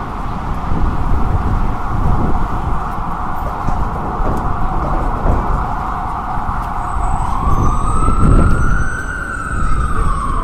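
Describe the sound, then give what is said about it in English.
Emergency vehicle sirens wail on a city street near an office tower, loud and sustained over steady traffic rumble. A rising and falling sweep comes near the end. “Sirens, of course.”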